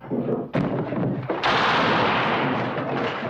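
Gunshots in a western movie trailer about Pat Garrett: a few heavy, booming shots with long ringing tails, the later blast louder and more sustained.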